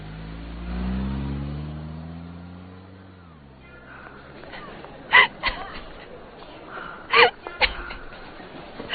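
A car driving off, its low engine rumble swelling and shifting in pitch over the first few seconds before easing into a quieter hiss broken by a few short, sharp bursts.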